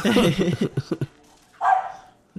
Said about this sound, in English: So that's their bark, basically. Very run-of-the-mill bark, I would say. Very terrier bark.